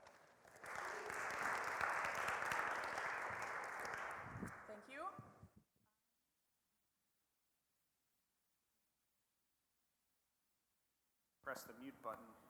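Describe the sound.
An audience applauds to welcome two speakers who will present artworks on an Advent theme. The clapping is loud and sustained for several seconds, fades out, and after a long silence a voice begins speaking.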